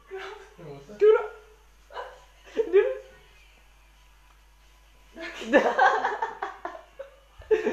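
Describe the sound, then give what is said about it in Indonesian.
A dog barks and yips in a few short bursts with pauses between them. People talk and laugh around the barking. “Anjing Sorry guys Anjingnya mabuk Anjing”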